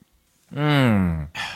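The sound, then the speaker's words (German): A voiced sigh of satisfaction after a sip of beer: one drawn-out, breathy 'ahh' that swells quickly, holds, and fades, followed by a short breathy exhale. “Hier ist wieder mein Sound, wenn ich irgendwas Leckeres oder auch nicht Leckeres esse oder trinke.”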